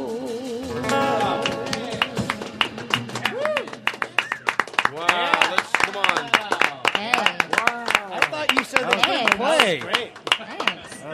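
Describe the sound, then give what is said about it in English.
A room full of men claps for a guest, many sharp, quick claps building into loud rhythmic bursts, with voices whooping and calling out over the clapping. “Oh, I love having a room full of men clapping for me.”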